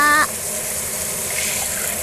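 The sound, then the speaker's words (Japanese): Water is poured from above to rinse hair at a washbasin, making a steady, even rushing hiss for nearly the whole clip after a brief voice at the very start. “じゃあ、髪の毛流しまーす。”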